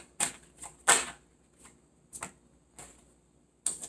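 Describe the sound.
Tarot cards being shuffled and drawn: several sharp, papery snaps and clicks at irregular intervals, with quiet gaps between them and no talk.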